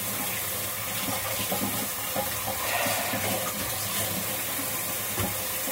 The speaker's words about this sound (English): I'm sorry, cleaning this spatula.